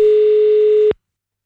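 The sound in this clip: A telephone ringing tone sounds during a failed call attempt: one loud, steady, mid-pitched tone holds for just under a second, then cuts off into silence.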